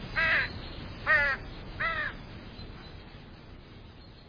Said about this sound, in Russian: Высоко, над их головами, с карканьем накручивала круги воронья стая.